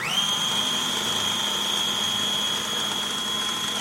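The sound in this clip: A kitchen blender whirs as it blends blue cheese dip, giving a steady, even motor drone with a constant high whine throughout and no talk.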